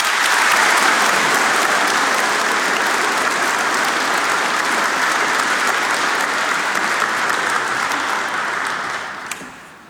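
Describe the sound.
Sustained audience applause greets the veterans' association of the Croatian 100th Brigade at a commemorative event, a thick, even wall of clapping that holds loud for about eight seconds before tapering off at the end.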